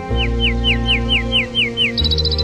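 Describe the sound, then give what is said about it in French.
Nightingale song: a run of about eight clear, repeated downslurred whistles at an even pace, then a quick burst of short, high chirping notes. It is fairly loud, over a low steady hum, with no talking. “Donc ça, c'est un rossignol. Il vient de chanter.”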